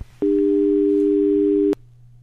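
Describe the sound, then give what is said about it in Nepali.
A single steady telephone tone signals a failed call. It sounds for about one and a half seconds, cut in and out by soft clicks, over a faint low hum. “Hello, टेलिफोनमा फेरि केही समस्या देखा परेको छ।”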